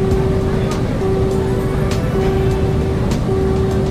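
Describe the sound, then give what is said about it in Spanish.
Continuous engine drone from a vehicle in a driving video game, loud and even throughout, with a steady hum and faint, regular clicks over the noise. “Vamos llegando a Bratislava. y seguimos reduciendo velocidad.”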